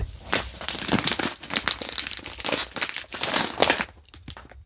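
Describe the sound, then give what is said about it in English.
Crinkling plastic of a pretzel bag being opened: many rapid, crackly rustles and crunches in dense bursts, fairly loud and continuous, easing toward the end. “First, are you hungry? My first item is pretzels.”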